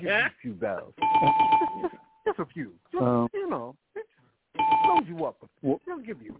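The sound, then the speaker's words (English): A bell rung twice, each a bright sustained ring at a steady pitch, a few seconds apart, over loud continuous talk. “Let me give this motherfucker a couple bells.”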